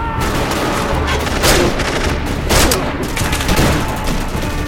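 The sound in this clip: Heavy gunfire during a predawn attack on a mountain peak near Penjwen: dense, continuous volleys of rattling shots, loud throughout, with a few stronger blasts standing out and no talking.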